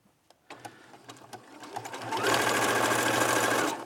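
Sewing machine stitching fabric, starting with a few slow, separate clacks of the needle mechanism, then speeding up into a loud, steady, rapid whirring run at full speed until the end.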